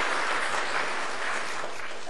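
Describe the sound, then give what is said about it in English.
Applause from an audience welcoming scouts at a morning gathering: dense, continuous clapping that holds steady and fairly loud for the whole clip. “Won't you make our scouts welcome this morning? Give them a hand, would you?”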